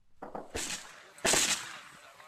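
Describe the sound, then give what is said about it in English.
Gunfire from an online video of rebel fighters crouched on a hillside in Syria's war: a few faint, sharp crackling bursts, the two loudest separated by under a second, each trailing off into noisy rattle. “A group of rebel fighters crouch on the ridge of a hill full of yellow flowers as bullets whiz past. The gunfire you can hear comes from an online video.”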